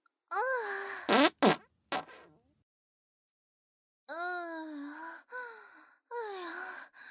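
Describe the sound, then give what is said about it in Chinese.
Wet farts: a few short buzzy, sputtering bursts, a silence, then three longer drawn-out tonal blasts, loud and alone with no talking. “这次的屁声音湿湿的。”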